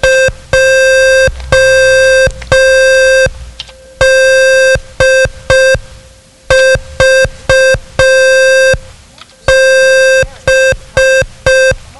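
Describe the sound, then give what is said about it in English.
Morse code at an exact character speed of five words per minute: a loud, steady single-pitch beep keyed into long and short tones separated by gaps, many characters in a row with no voices. “Some examiners might use a method of code speed which sends the code at the exact character speed of 5 words per minute. This sounds like this.”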